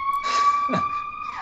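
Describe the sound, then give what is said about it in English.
Emergency vehicle sirens passing outside: a steady, piercing two-tone wail that holds its pitch and then dips slightly near the end, with dull background noise underneath. “Sorry about the sirens.”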